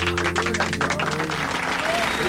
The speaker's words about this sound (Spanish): Muchas gracias a toda la raza por esos aplausos.